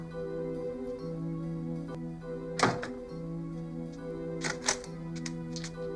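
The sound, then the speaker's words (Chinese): A door swings shut with one solid, low thunk, followed later by a few lighter knocks and clicks, all over a steady low hum. “麻烦你帮我把门关上”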